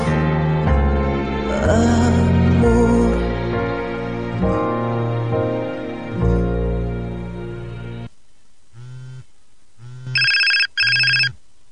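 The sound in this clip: A telephone ringing with an incoming call on a phone panel, a series of short electronic ring tones following music, ending in two louder sustained rings.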